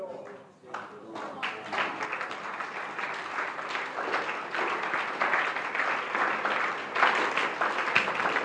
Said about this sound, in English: Your hand clap tells me you, you are getting the point.